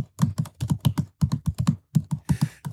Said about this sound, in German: also ein Tippverhalten von einem 2-Finger-Tipper